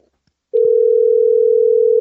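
A telephone line tone after dialing a mobile number: one steady, pure mid-pitched tone that starts abruptly after a short silence and holds for about one and a half seconds, alone with no talk.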